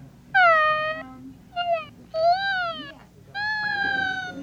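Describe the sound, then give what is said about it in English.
A talking baby doll plays whining baby sounds: four drawn-out, nasal electronic whimpers with wavering pitch, separated by short pauses. “Is this called the whining doll? No, it's a new baby sounds. Just a whining baby, that's all it is.”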